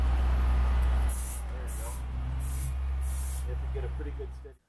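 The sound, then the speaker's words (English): A Ficosa camera washing system sprays a mixture of fluid and compressed air onto camera lenses, producing about four short, sharp hissing bursts over a steady low rumble. “So Forcia's camera washing solution uses a mixture of fluid and compressed air to clean off the lenses. You can hear it working here.”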